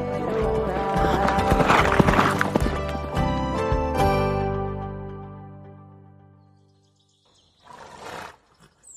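Horse hooves clip-clop as a lone rider crosses a desolate, snow-patched mountain. The steady hoofbeats sit under swelling music that gradually fades to silence, followed by a brief noisy burst at the end.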